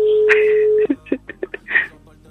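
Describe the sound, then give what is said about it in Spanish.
Telephone being dialed to call someone back: a steady dial tone holds for just under a second, then gives way to a quick run of separate keypad tones. “la vamos a volver a llamar”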